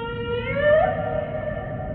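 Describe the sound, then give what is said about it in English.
A humpback whale call: a single sustained tonal moan with rich harmonics that rises briefly in pitch and then holds steady, loud and alone for about two seconds. “That's the sound of the humpback whale.”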